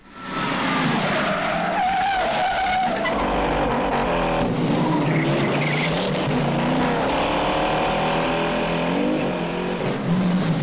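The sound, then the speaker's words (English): Tyres squeal as a black sedan burns rubber and roars away. A loud, sustained screech blends with a powerful engine roar without a break. “Burning rubber, the black sedan roars away.”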